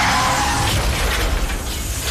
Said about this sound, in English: Then comes the crash.